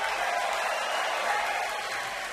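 An audience applauds at the end of a live concert, a continuous wash of many hands clapping. It stays fairly soft and even, easing slightly toward the end.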